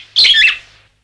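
Birds chirping in a tree: one quick, bright burst of high twittering that lasts about half a second, then fades into quiet.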